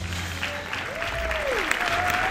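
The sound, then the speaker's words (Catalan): Circus audience applause for a tightrope act, a steady, dense clatter of many hands with a thin, sustained tone drifting over it. “Notar els aplaudiments i l'escalfor del públic és el que sempre havia desitjat.”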